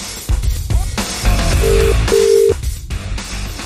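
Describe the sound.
A telephone rings on an outgoing call: two short, steady electronic ring tones in quick succession, cutting through a dense, busy background.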